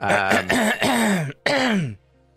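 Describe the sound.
A person clearing their throat loudly in two voiced bursts separated by a short gap, each a gravelly hum whose pitch slides downward before trailing off into quiet.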